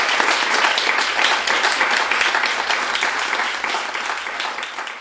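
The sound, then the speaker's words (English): Audience applause after an author's reading at a bookstore: dense, loud clapping from a full crowd, sustained and even, that slowly thins and softens toward the end. “Please give them a round of applause.”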